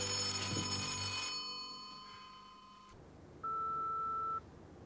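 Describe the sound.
Electronic telephone ringing at night: a single steady, mid-pitched ring tone sounds once, after a sustained tonal hum fades out.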